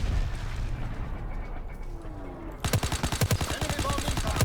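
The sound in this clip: Rapid automatic gunfire from weapons in a shooter video game: low ambient rumble at first, then a fast, loud, evenly spaced string of many shots that runs to the end.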